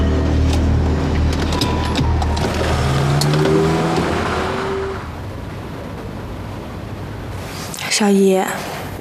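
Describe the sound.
A car engine revs as the car pulls away. Its tone climbs over the first few seconds, then gives way to a softer, steady motor and road noise, with a short burst of a voice near the end.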